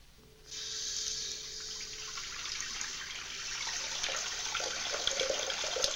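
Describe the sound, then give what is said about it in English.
Hands move through water in a bathroom basin, making a continuous soft splashing wash that starts abruptly after a moment of near-quiet and carries on steadily to the end. “He looks at his own reflection in the mirror above the basin and then, as if sadly, back down to his hands in the water.”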